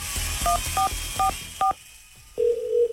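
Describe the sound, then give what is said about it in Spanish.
Touch-tone beeps as a telephone number is dialed on a call: four short keypad tones at an even pace, followed by a longer steady single tone over a low background hum. “Ok, vamos a volverle a marcar.”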